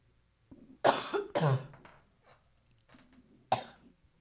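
Coughing and throat clearing from a tickle in the throat: a few sharp, harsh coughs, with softer rasping throat-clearing sounds between them. No speech.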